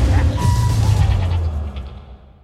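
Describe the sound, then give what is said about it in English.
A deep sub-bass drop, the booming bass swell of a suspenseful action movie trailer. It is a loud, heavy low rumble that holds for about two seconds, then fades away, with other higher trailer sounds layered above it. “The booge can also be called a bass drop or a sub drop. Today, you can count on the booge occurring in just about every suspenseful action movie trailer.”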